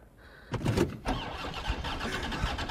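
A car engine growls into life, a rough mid-pitched rumble that surges up at about half a second and again near one second, then holds loud and steady to the end with no voices.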